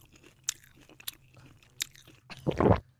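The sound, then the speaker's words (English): Eating a snack of homemade gelato that was frozen for half an hour: faint crunches and chewing, with a few sharp bites and a louder crunching burst at the end. “Yeah, and then I chucked it in a freezer for about half an hour and it's a nice consistency now. And so I'm going to have a bit of a snack.”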